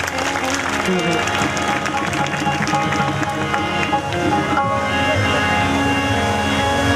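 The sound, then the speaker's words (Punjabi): An audience applauds at a religious gathering: dense clapping from many hands, with voices heard over it. “ਇੱਕ ਵਾਰੀ ਸਾਰੀ ਸੰਗਤ ਨੂੰ ਮੇਰੀ ਬੇਨਤੀ ਹੈ ਕਿ ਇਹਨਾਂ ਦੇ ਨਾਂ 'ਤੇ ਔਰ ਇਹਨਾਂ ਦੀ ਮਿਹਨਤ 'ਤੇ ਜ਼ੋਰਦਾਰ ਤਾੜੀ ਲਾ ਦਿਓ ਸਾਰੀ ਸੰਗਤ ਹੱਥ 'ਚ ਕਰਕੇ।”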